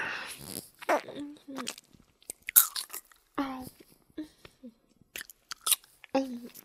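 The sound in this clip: Someone eating a lollipop makes wet smacking and biting clicks in short bursts, broken by pauses. A voice talks at intervals between the mouth sounds.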